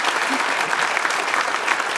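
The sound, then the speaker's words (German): An audience applauds a guest with loud, dense, steady clapping that continues without a break. “Gratulation. Danke schön. Und Applaus für Nils Petersen.”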